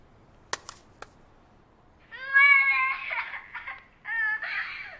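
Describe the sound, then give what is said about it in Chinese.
A child cries in a rented room. A couple of faint clicks come first, then two bursts of high, wavering wailing sobs, moderately loud, with no one talking. “这是在你的出租屋里录的，一个孩子在这个房间被绑架了。”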